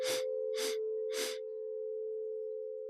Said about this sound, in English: Hold for 4. Exhale for 4. Inhale for 3.